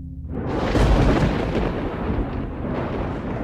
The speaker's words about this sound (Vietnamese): Có tiếng sấm vang dội trên tầng không.